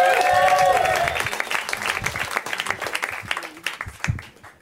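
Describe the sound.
Audience applause for a comedian taking the stage at a comedy show: a dense crackle of clapping that thins out and fades toward the end.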